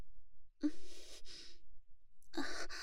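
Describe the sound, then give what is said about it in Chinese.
Breathing from a coach standing close behind another person: two breathy exhalations, one in the first half and one near the end, with a quiet pause between. No one speaks. “没什么，就是教练您在背后的呼吸吹得我头发 撩到脖子了，稍微有点痒。”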